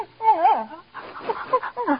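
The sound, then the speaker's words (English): An old dog whimpers in a ranch bunkhouse, giving a couple of high, wavering whines that rise and fall in pitch. “Thought you was going to tie that stinky old dog up outside, Candy. There ain't no rules in this ranch says you can't have a dog in the bunkhouse.”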